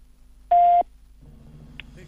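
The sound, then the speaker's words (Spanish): A voicemail beep on a phone line marks the start of a message: one loud, steady, mid-pitched tone lasting about a third of a second, followed by faint low background hum. “Por favor, deje un mensaje. Después del tono, después del tono.”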